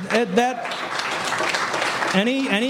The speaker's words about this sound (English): Any applause is not for me. It goes for the troops that serve.